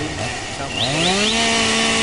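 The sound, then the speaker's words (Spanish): A chainsaw is cutting trees near mountain springs. Its engine revs up with a climbing pitch, then holds a loud, steady, buzzing whine. “¿Usted por qué está cortando los árboles tan cerca de los ojos de agua?”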